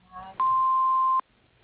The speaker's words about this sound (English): Please leave a message after the beep.